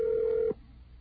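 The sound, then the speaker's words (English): The ringback tone of an unanswered outgoing telephone call, a single steady buzzing tone lasting about half a second before it cuts off into near silence. “Give it one more ring. All right, that's one more ring.”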